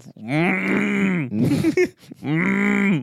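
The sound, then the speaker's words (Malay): A voice imitates a rhino with two long, low, groaning calls, each held for about a second, separated by a shorter rough, noisy burst. “Rhino? Wah, aku tak tahu Rhino punya gitu.”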